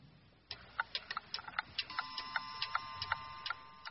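Ticking of a Swiss watch in a shop: a quick run of many light, crisp ticks at a slightly uneven pace, fairly soft, with no voices over them.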